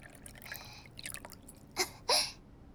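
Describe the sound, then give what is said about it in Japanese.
Whisky poured generously over pears until they are just covered: two brief liquid splashes in quick succession, the second slightly longer and louder, over a faint quiet background. “ひたひたになるまで惜しみなくウイスキーを注いで、”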